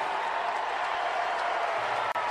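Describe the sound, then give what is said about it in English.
A stadium crowd roars during the pregame ceremony introducing Pete Rose, a fairly quiet, steady wash of cheering and clapping with no clear breaks. “So it's a little mixed, but it's mostly cheers.”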